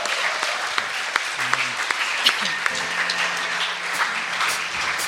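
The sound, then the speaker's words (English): Congregation applause rings out at a church service to welcome the worship leaders, a steady, even wash of clapping that continues without pause for the whole stretch. “We've got Chalk Farm leading us today. Give a big round, a big welcome.”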